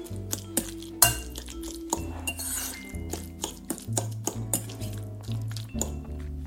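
A spoon clinks repeatedly against a bowl while avocado and canned tuna are mixed with lemon juice and pepper. Many short, bright clinks in an uneven rhythm sound over steady background music.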